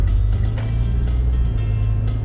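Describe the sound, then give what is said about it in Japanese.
Car engine rumble as the vehicle drives and turns at an intersection, a steady low hum with no talking. “ここ交差点曲がります曲がってからお話ししますね運転に集中しないといけないんでね”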